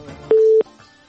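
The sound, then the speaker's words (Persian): A telephone disconnection tone after a dropped call: one steady, mid-pitched beep lasting about a third of a second, clear and alone. “بله تماسشان متاسفانه قطع شد.”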